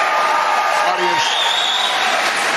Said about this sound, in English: Audience, let's not do this. Let's not do this. Let's let the candidate speak.